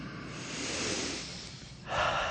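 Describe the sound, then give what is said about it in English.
Breathing in through the nose with the mouth closed: a long, soft, airy inhale that swells and fades, followed by a sharper, louder nasal breath. “close your mouth and take a couple of breaths in through the nose”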